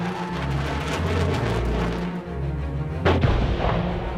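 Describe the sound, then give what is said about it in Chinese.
Bomb explosions from a war film playing on a TV, heard as a continuous low, rumbling roar of blasts with a sharper, louder burst in the later part. “电视播着播着，就播到了战争影片。当影片中播到军人被炸弹炸得血肉横飞的时候，”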